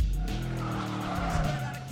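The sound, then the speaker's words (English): A Mustang car does donuts in a parking lot, its tires squealing continuously over a loud, revving engine roar for the whole stretch. “The Mustang does donuts in the parking lot and speeds away.”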